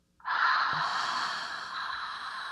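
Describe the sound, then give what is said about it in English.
A deep human breath, one long airy rush of air that starts suddenly and then holds steady, slowly fading a little toward the end, with no talking. “So let's take a nice deep breath. And then exhale.”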